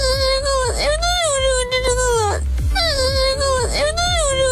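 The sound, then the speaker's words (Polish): A crying sound effect of loud, wavering wails with a high sobbing pitch comes in two long bursts separated by a short catch of breath. “Lepiej, żeby tak nie było. Będzie płacz.”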